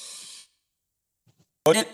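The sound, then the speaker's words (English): A deep inhale taken during a guided breathing exercise, a soft airy hiss lasting under half a second, followed by a quiet pause before a voice briefly begins. “we take our deep breath and we say our affirmation, protection prayer, so we can take on the day. So we can take on this terrific Tuesday, terrific. So, soul motivators, breathe in,”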